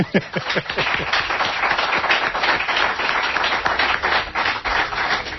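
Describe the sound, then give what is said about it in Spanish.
Applause, many hands clapping in a dense, steady patter that fills the whole five seconds, with no voices. “Bueno, pues se merece un aplauso, ¿verdad?”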